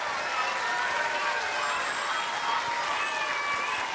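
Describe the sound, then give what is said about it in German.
Many children clap in steady, dense applause at the Ernst-Deutsch-Theater in Hamburg as they welcome an author, a continuous even patter from start to finish. “Und so klang das, als die vielen Kinder im Theater Kirsten Boye begrüßt haben.”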